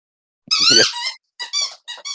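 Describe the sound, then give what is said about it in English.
Squeaky toy being squeezed by a cat: one long, high-pitched squeak followed by several short, sharp squeaks, loud and alone. “the cat who's squeaking the toy in the background”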